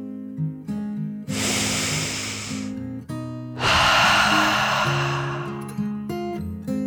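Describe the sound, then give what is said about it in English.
A dragon's deep breath, voiced by a person: two long, airy rushes of breath, an inhale then an exhale, each swelling and fading, over soft sustained music. “Jerry took a deep dragon breath in and out.”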